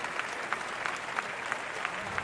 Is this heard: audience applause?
yes